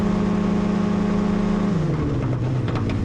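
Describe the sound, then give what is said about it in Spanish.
A small plane's engine fails in flight, its steady, loud droning hum sagging lower in pitch toward the end. “De pronto, el motor comenzó a fallar y se detuvo por completo.”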